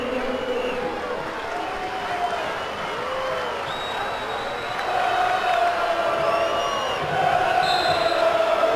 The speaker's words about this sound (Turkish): tezahüratları İngilizlerden.